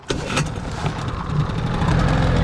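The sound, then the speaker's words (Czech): A powerful boat motor starts up and runs, giving a loud, rough, continuous mechanical roar that stays dense and steady to the end. “Pádlovat nebudeme, máme tu silný motor.”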